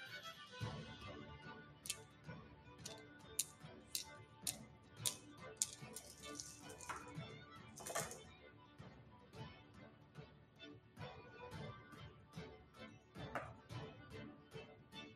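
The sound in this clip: Dice rolling in a dice tray during a tabletop game: many sharp clattering clicks in irregular bursts across the whole stretch, fairly faint, with soft talk at times.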